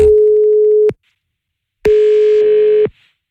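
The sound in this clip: Telephone call tones heard while dialing a number: two steady, low-pitched tones, each about a second long, separated by a silent pause, the second tone buzzier and brighter than the first.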